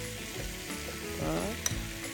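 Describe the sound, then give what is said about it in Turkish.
Flour hits melted butter in a pan and sets off steady, hissing sizzling, with soft stirring scrapes running underneath and a brief sharper crackle near the end. “Biz yemek kaşığı un koyuyorum. Tereyağını erittikten sonra evet.”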